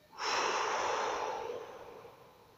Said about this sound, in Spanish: respira por la nariz. Exhala.